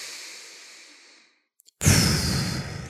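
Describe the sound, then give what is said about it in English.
Deep breathing during a breathing exercise, in through the nose and out through the mouth: a long airy breath fades away, a brief silence follows, then a louder, rushing breath continues to the end. “So I'm actually inhaling through the nose, exhaling through the mouth.”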